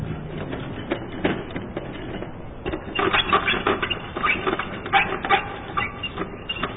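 Squeaking and rattling from an unoiled object needing lubrication: irregular bursts of clattering, creaky friction noise over about seven seconds, growing louder and busier in the second half, with no voices.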